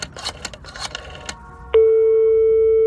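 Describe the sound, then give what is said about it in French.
Telephone ringing tone on a call placed from a public phone booth to a secretary: after a second or so of irregular clatter, a steady, loud, continuous tone begins and holds unchanged to the end. “Alors il appelle sa secrétaire.”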